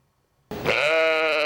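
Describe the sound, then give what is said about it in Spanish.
A single long bleat from a cloned sheep starts abruptly out of silence and holds as a steady, bright, nasal tone to the end, with no other sounds. “Esta es Dolly, la oveja más famosa de la historia, el primer mamífero clonado a partir de una célula adulta.”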